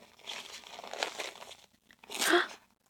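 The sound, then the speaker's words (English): Disposable diaper on a baby being pulled up snugly and fastened; soft plastic crinkling rustles for over a second, a brief pause, then one louder, sharper crinkling burst. “Okay, let's pull this diaper up nice and snug. Can't have any leaks for this little baby.”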